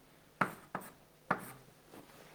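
Writing on a board: three crisp, distinct strokes, each with a quick scraping decay, followed by a fainter fourth stroke against quiet background.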